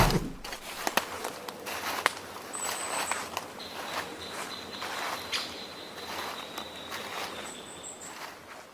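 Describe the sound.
Footsteps walking toward a beer garden: a few faint, irregular steps, with soft high chirping in the background.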